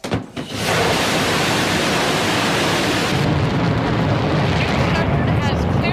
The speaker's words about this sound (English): I don't know if I'd be brave enough to jump on board a rocket and hurl up into space, but that's what Shatner did yesterday, and it was a pretty smooth liftoff.